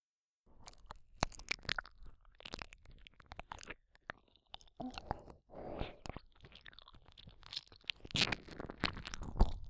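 Crunchy chewing while eating: many sharp, irregular crunches and bites in quick succession, with softer wet mouth sounds between them. It is quiet with no talk and grows busier and louder toward the end.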